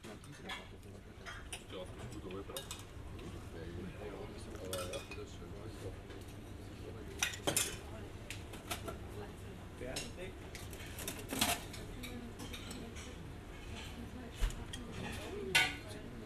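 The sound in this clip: Pots, pans, dishes and cutlery clatter in a kitchen full of cooking steam: a low, steady murmur of voices with scattered sharp clinks and knocks, a few louder ones standing out toward the end.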